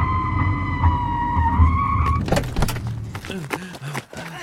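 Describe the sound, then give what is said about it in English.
A car bumper scraping along the road and throwing sparks: a harsh, grinding rasp over a low rumble. A steady high whine fills the first half, then gives way to rough, clattering bursts of scraping. “There's sparks coming up from the bumper. It's too loud, it has to come off.”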